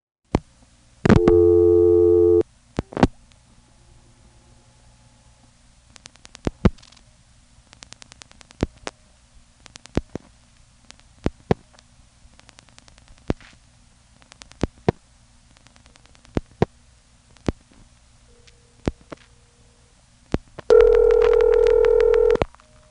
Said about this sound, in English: Notice the rotary switch on that too. You know, you dial 1, 2, with the result that I can do something like this.